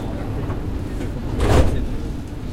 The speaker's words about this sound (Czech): Ukončete prosím výstup a nástup, dveře se zavírají.